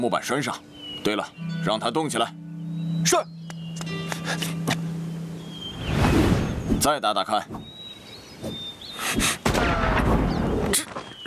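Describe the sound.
Gunshots from a soldier's solo shooting practice: several sharp, loud cracks burst out among ongoing talk, and one heavy blast stands out in the middle.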